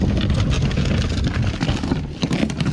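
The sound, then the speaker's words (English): River guides haul a boat up a steep 200 to 300 foot slope at a 45 degree angle beside Cataract, a Colorado River stretch. A dense, continuous grinding rumble carries scraping, rattling bursts throughout. “What you're hearing, that's not the sound of heavy equipment on a construction site. This is the sound of river guides hauling a boat up a 200 to 300 foot slope at a 45 degree angle.”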